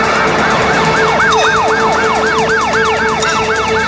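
A police car siren sounds loud and alone in rapid repeating rising sweeps, a fast yelping wail that continues throughout.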